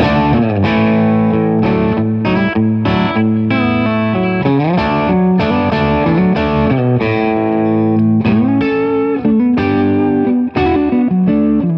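Electric guitar played through an effects pedal set for a heavy sound. Thick, distorted chords and riffs ring with rich sustained overtones, loud and continuous, with no talking.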